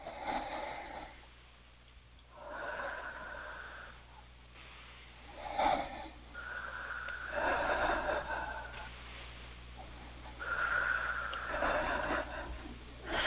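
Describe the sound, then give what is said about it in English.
Three slow, deep breaths taken during a guided healing session, each a long, airy inhale and exhale with soft nasal hiss. The breaths are quiet and unhurried, with pauses between them. “3 nice deep breaths.”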